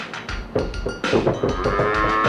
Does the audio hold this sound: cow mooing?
yes